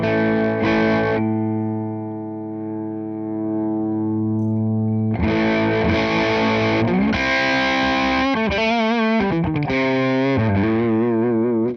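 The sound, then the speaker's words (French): A string instrument played through an amplifier with its growl control turned fully up, giving a thick, fuzz-like distortion: a loud, sustained note rings for several seconds, then a busier passage follows with wavering, bending notes. “Et il y a un réglage particulier qui est un réglage de growl qui était là à zéro. Ça épaissit le son pour presque le faire fuzzer. Alors je vous le mets à fond pour que vous entendiez.”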